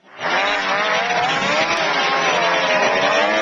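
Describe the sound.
Snowmobile engines roar during a 145-mile snow machine race near the eastern border of Kluane National Park Reserve, in harsh weather. A loud, continuous high-pitched whine swells in quickly and holds steady throughout.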